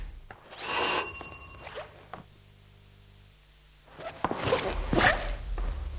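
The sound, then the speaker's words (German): A doorbell rings at the door of a flat: a bright chiming tone near the start that fades within about a second, followed by a few faint lower tones and then some quiet rustling. “Sollen wir uns bemerkbar machen? Natürlich. Gut, ich klinge mal.”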